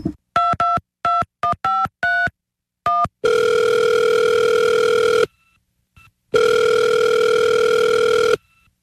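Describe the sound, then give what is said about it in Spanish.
A phone call to an office is dialed with a quick series of short touch-tone beeps at an uneven rhythm. Two long, steady ringback tones follow, separated by a silent gap. “pues peguemos una llamada a ver qué nos contestan en la casa del procurador El Hacho”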